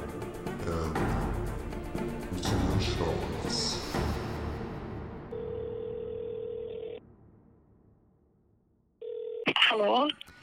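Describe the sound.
A telephone is dialed to place a call: a busy stretch of dialing tones gives way to a steady, mid-pitched ringing tone that stops, pauses in near silence and then sounds briefly again.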